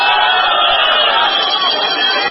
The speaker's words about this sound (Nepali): त्यही बेला सिट्ठी र ताली परर बजेका थिए.